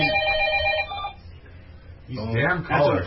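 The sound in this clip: A telephone rings with a steady, high tone for about a second. A short pause follows, then people begin talking.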